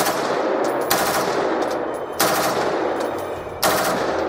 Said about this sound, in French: Et là, ça commence à tirer.